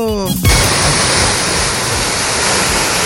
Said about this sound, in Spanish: todo el lodo, el barro, el agua que baja y que llega hasta el sector de las piscinas aluvionales de Tal Tal. Este es el flujo de agua que viene proveniente del sector cordillerano.